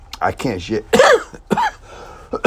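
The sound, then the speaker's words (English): Harsh, rough coughing from a man with a lingering cough after a bad cold. A few throaty, voiced bursts come in uneven succession with short pauses between them. “I can't shake this cough. And see, I'm giving you a preview of it even as we speak.”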